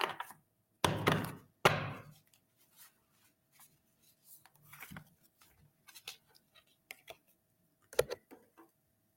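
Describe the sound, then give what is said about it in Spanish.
A deck of cards is shuffled, with a few loud riffling bursts near the start. Scattered soft slaps and taps follow, faint overall. “vamos a revolver las cartas.”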